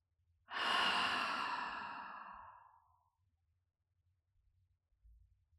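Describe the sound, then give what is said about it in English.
A single slow, deep breath rushes out with an airy, breathy texture, loudest at the start and fading away gradually over a couple of seconds into near silence. “Breathe in. Breathe out.”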